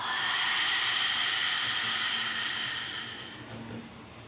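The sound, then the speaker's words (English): A deep exhale through an open mouth during a guided breathing exercise: a steady, breathy hiss that thins and fades after about three seconds. No voices. “One more. Full, nourishing breath in. Open mouth, clearing, exhale.”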